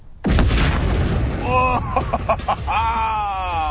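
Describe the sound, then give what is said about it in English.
A television blown up for a high-speed camera demonstration: a sudden, loud explosive blast, then a sustained, rough roar. Drawn-out tonal, groan-like sounds ring through the latter half. “All right, demonstrating a high-speed camera by blowing up a TV. Here we go in 3, 2, 1, fire!”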